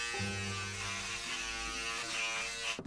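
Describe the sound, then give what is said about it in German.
Steady electric razor buzzing, used to imitate a hornet, holds a rich, even drone with dense overtones throughout, ending in a short rougher burst of noise. “Die Hornisse, ein Rasierapparat.”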